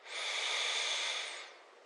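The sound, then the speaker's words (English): A single slow breath: a soft, airy hiss that swells, holds steadily for over a second, then eases away, quiet and without speech. “just taking one breath at a time, breathing in”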